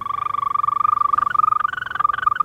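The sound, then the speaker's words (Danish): Endangered European green toad croaking: a continuous, rapid, high-pitched pulsing trill that holds a steady pitch throughout, heard alone. “den truede, grønbrogede tudse tidligere er blevet spottet. Den lyder sådan her.”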